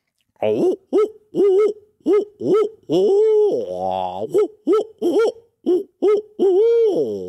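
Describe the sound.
Owl hooter locator call, used in turkey hunting, imitates an owl hoot: a loud, rhythmic series of many short, hollow hoots, with a longer wavering hoot drawn out in the middle, heard alone.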